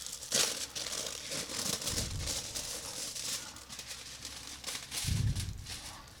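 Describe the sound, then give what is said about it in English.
Foil crinkling as it is unwrapped from a wine bottle, faint crackly rustling with a few louder crumpling bursts near the start, middle and end. “I like wrapping in foil. You've probably noticed that now. I'm not the paper bag kind of guy.”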